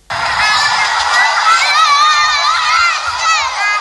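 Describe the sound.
A loud, continuous crowd of shouting and cheering children fills the play area of the Bois de Ngaoundéré Mardok in the Adamawa region, with high voices overlapping throughout.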